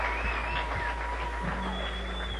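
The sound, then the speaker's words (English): An audience applauds a young bluegrass group with steady, dense clapping that holds an even loudness throughout. “Let's give them a great round of applause, will you?”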